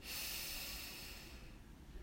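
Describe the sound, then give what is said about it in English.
A long, deep breath drawn in: a steady, airy hiss that holds evenly for about two seconds and eases off slightly at the end, with no talking. “And one more deep breath in, breathe in,”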